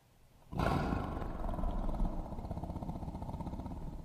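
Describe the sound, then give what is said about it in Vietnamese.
A tiger's roar bursts in after a short quiet lead-in: one loud, deep, rumbling roar that swells and then holds as a rough, growling rumble to the end. “Con hổ thấy vậy gầm lên một tiếng rồi chồm vào hướng của Thái Hậu.”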